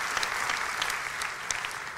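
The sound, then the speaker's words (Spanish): A church audience applauds with steady, dense clapping that holds at an even level from start to finish, with individual sharper claps standing out from the wash. “Si va a aplaudir, hágalo con más ganas, iglesia.”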